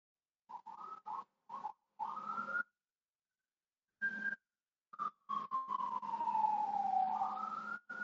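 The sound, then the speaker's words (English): Police sirens outside, faint and choppy, first in short broken bursts, then a longer wailing tone that slides down and rises again. “I can hear some police sirens. Let's hope he's not those outside.”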